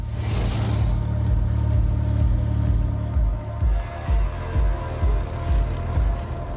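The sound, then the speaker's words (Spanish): A taxi drives past and turns around in a thriller scene. A rumbling mid-pitched engine revs, and its low growl swells and fades in a steady pulsing rhythm. “El taxi pasa de largo, da media vuelta.”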